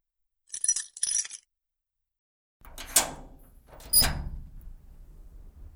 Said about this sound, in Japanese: ちょっと待ってね、今開けるから。